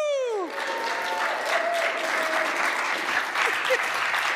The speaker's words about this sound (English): if we could stand, just thank you, and do something that we haven't done before, which is a standing ovation for Jeff as he comes in and gives us this message.